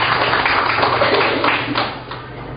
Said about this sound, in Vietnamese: Chúng ta cho tràng tay mời Sơ.